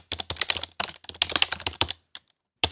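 Rapid keyboard typing as a written reply is typed out. Many quick, clicky keystrokes come in dense bursts, then a brief pause and a few final taps, with no talk.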